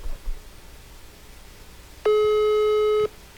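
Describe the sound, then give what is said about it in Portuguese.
Telephone busy signal on an unanswered call: a single loud, steady electronic beep lasting about one second, breaking sharply into quiet line hiss and cutting off just as abruptly. “Aí, atende aí, velho. Não tá atendendo. Não, deixa ele, não tá atendendo.”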